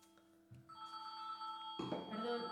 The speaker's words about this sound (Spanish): Entra otra llamada.